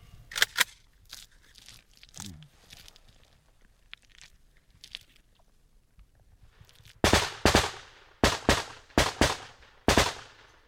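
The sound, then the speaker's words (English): Outgoing heavy DShK machine gun fire from a Ukrainian frontline position toward Russian forces: scattered faint reports at first, then loud, sharp bursts of several rapid rounds, repeating in quick succession toward the end. “The outgoing machine gun fire from the Ukrainians is aimed at suppressing the Russians so they don't fire back.”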